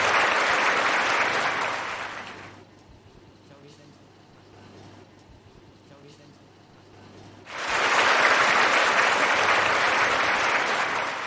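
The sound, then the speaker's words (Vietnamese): Audience applause welcoming a guest to a Buddhist-themed stage program: loud sustained clapping fades after about two seconds, a quieter stretch follows, then a second loud burst of clapping rises and continues to the end. “Xin quý vị hãy cho một tràng pháo tay thật lớn để chào đón Phật tử.”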